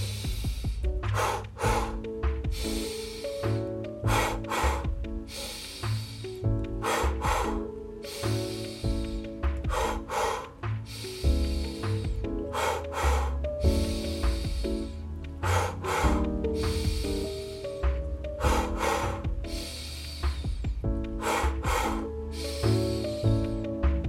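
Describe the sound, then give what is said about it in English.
Deep inhalations repeat throughout a slow guided breathing practice meant to help with sleep. The breaths are airy and drawn-out, rising over soft sustained music with a steady pulse. “Inhale. That will be the rhythm to start. Let's begin. Inhale.”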